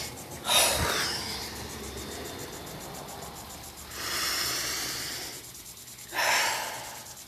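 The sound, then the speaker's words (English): Deep breathing from the stomach: three long, airy breaths, the first and last starting sharply, over a steady faint background hiss. “You breathe in through the deep part of your stomach.”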